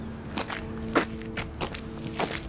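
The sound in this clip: Footsteps walk up a street on a windy, drizzly morning: a few soft, evenly spaced steps sound quietly and alone, with no voices.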